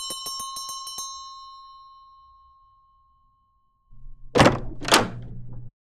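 A hand bell rung to summon a servant: a rapid flurry of bright metallic strikes with a long ringing decay, followed after a pause by two heavy thuds, like a door opening.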